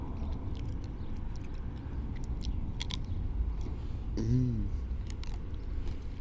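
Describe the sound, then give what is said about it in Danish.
Biting and chewing an ice cream cake while sitting in the sun on a town square: many small crisp crunches and clicks scattered over a steady background hiss. “Jeg sidder bare i solen og spiser en iskage nede på torvet.”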